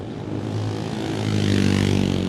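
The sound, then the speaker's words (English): Velocette 500 single-cylinder motorcycle pulling away at a race start: a steady, low engine drone that swells louder toward the end, with no voices. “It's a Velocet 500. Big single 500, and away he goes.”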